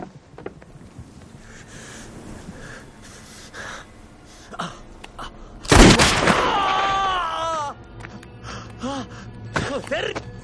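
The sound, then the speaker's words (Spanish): A single sharp, loud revolver gunshot in a western film scene cracks out midway, standing well above the quieter background sounds before and after it. “Dan dispara y el jinete cae.”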